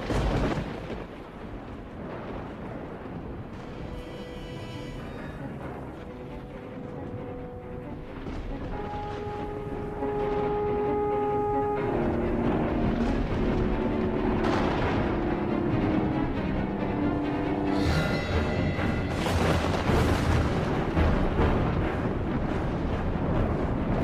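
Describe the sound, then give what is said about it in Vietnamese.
Booming thunder from a lightning strike in a storm rolls in a few heavy, rumbling crashes. It swells and fades under sustained, ominous music that keeps going throughout. “Đúng lúc một tiếng sét chói lòa vụt lên, mọi thứ sáng rực.”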